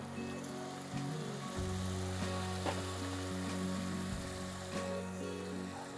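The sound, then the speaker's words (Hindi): Spices with a cinnamon stick sizzle in a pan after a little water is poured in, a fairly faint, continuous hissing crackle running throughout over a low humming tone. “And then थोड़ा पानी डालूंगा इसमें.”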